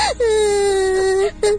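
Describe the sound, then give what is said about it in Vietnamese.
A woman cries in a long, sustained, high wail that dips at the start and then holds its pitch, followed by a brief second sob. “Hình như đâu có nói gì đâu mà sao em khóc?”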